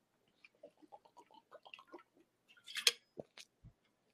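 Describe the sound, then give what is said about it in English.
Someone drinks water from a big, very thick bottle with wet gulps and slurps: a run of small clicky swallows, then a louder splashing burst, followed by a few low thuds. Nobody speaks. “Unfortunately, though, the drinking of the water sounds like this.”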